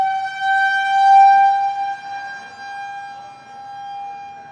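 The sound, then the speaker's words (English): A civil defense-style siren wails with a steady, sustained tone and strong harmonics, swelling loud early, dipping briefly, then holding at a lower level. No voices are heard. “We'll let the siren end here.”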